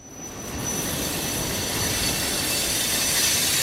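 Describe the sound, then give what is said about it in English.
A train passes on a busy rail line. A broad, steady rumble swells in at the start and then holds, with a high, thin wheel squeal running over the roar and no voices. “trains still go by. In fact, multiple times a day. It's a very, very active line. We've actually seen an increase. It used to only be a handful of trains a day. Now it's, you can probably hear it in the background now”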